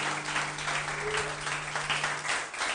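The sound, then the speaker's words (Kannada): A church audience claps for the pastors, a steady, fairly faint patter of many hands over a constant low hum. “So can we appreciate them one more time, Pastor? ನಾವೆಲ್ಲರೂ ಒಂದ್ಸಲ ಮತ್ತೊಂದ್ಸಾರಿ ಅವರನ್ನ ಚಪ್ಪಾಳೆ ತಟ್ಟಿ ನಾವು appreciate ಮಾಡುವಂತರವನ್ನು.”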